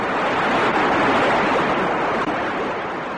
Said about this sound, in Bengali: বৃষ্টি তুফান শুরু হয়েছে, অহন বাইরে খাড়ায় কথা না কইয়া তাড়াতাড়ি ঘরে আসো সবাই, ঠাডাও পড়বো।